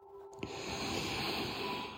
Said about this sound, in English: Let's take some more really relaxing deep breaths all the way in and let it go.